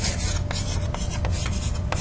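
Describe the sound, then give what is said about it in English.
Writing on a board: continuous dry scratching and rubbing, with a few sharper strokes at irregular intervals over the steady scrape. “And now let's write down the following thing.”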